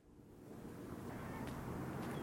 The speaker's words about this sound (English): It is a windy day in the port city of New Bedford